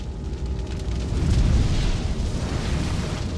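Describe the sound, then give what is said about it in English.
A lab explosion with test tubes bursting makes a deep, loud roar with dense crackle and rumble. It runs for about three seconds, swelling slightly partway through, with no voices. “As Scarlet waits below the Thames, test tubes in her lab explode.”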